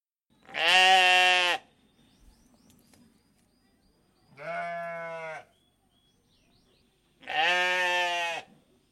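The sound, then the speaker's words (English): Sheep and goats bleat on a farm: three long, loud, wavering calls with rich harmonics, separated by quiet pauses. “So let's return to the farm sounds previously in progress.”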